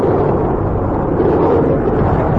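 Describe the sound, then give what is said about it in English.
A two-engine Marine Osprey tiltrotor aircraft, a mid-sized troop transport, flying like an airplane: a steady, loud, unbroken roaring rumble that holds level throughout. No one speaks. “The two-engine Marine Osprey flies like an airplane.”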